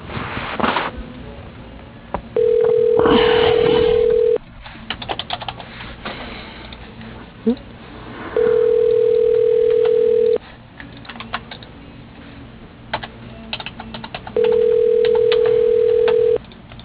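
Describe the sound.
A telephone extension ringing for a caller on hold: three long, steady ring tones separated by pauses, with soft clicks and tapping between them.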